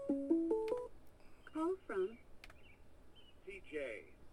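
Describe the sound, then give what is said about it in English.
Telephone tones signal an incoming call: a short run of four stepped electronic beeps rising in pitch, followed by further chirpy tones with voice-like sounds mixed in. “I got an incoming call. Give me 1 second here.”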